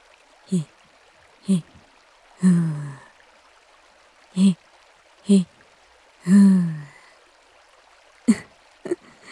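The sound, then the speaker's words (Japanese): A person performs Lamaze-style childbirth breathing aloud: two short, breathy puffs, then a longer voiced exhale, with the pattern repeated twice. A few faint, quick breaths follow at the end, each separated by quiet gaps. “ふうお産の呼吸してやんの。”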